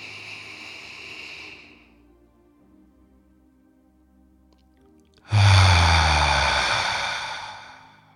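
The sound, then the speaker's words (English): A deep breath drawn in through the nose, then held in silence for a few seconds before a long, loud exhale that slowly fades away. No one speaks during the breath. “take a deep breath in with me. Breathe in through your nose for 3 seconds, hold it at the top for three, and exhale for three.”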